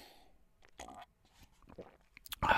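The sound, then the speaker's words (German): Someone takes a quiet sip of a drink: a few soft, wet slurping and swallowing sounds with small clicks, then a brief louder noise at the very end. “Sekunde, sollen wir gerade ein Schlückchen trinken?”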